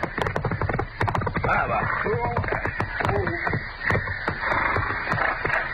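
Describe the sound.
Galloping horses pulling a runaway stagecoach: a dense, rapid patter of hoofbeats with a rumbling undertone runs throughout, under men's voices.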